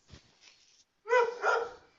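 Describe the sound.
A dog barks indoors, a quick pair of loud, mid-pitched harmonic barks running almost together, preceded by a faint, brief scuffle-like sound; no voices accompany it.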